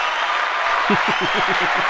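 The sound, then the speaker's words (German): Recorded applause is played in a studio during a Bundesliga football segment, a steady even wash of clapping, with a voice-like sound rising over it in the second half. “Das ist jetzt schon mal ein bisschen Applaus wert. Aber ob es das Spiel wird, weiß ich nicht so richtig. Dann geben wir den Applaus.”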